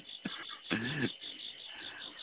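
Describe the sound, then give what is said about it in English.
Crickets chirping in the background, a faint, steady high-pitched trill that runs through the whole stretch alongside a few soft low-pitched sounds. “Yeah, I can even hear the crickets in the background.”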